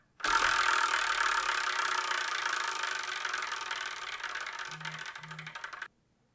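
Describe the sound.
A prize wheel is spun to pick the next manga, giving a dense, rapid rattle of ticks for about six seconds before it stops abruptly. Two short, low tones sound near the end.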